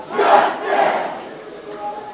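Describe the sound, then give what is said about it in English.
Hundreds of protesters chant inside the North Carolina General Assembly, a crowd shouting a short slogan in unison: two strong, loud beats followed by a fainter third. “That's the sound of hundreds of protesters inside the General Assembly.”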